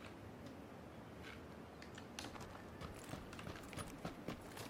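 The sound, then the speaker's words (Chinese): Faint footsteps: a run of soft, irregular step impacts over a steady hiss, growing slightly more distinct toward the end. “怎么听见脚步声？”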